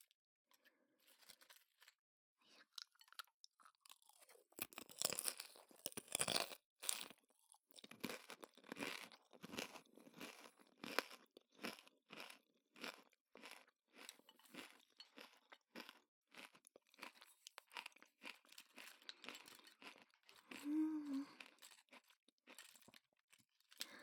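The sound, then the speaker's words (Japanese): Crisp tacos crunch as they are bitten and chewed, many sharp, crackly crunches in irregular bursts, fairly quiet and with no talking. “シャキシャキ感とタコスのパリパリ感がいいですよね。”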